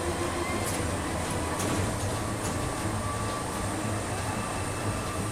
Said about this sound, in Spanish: justo en el momento en que aparece el veloz tren.